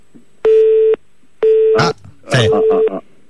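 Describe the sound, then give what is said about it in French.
Call-waiting beeps sound on a radio studio's phone line: three steady, mid-pitched tones of about half a second each, evenly spaced, with brief voice sounds overlapping the last two. “non, mais double appel, là? On a un problème au standard, peut-être.”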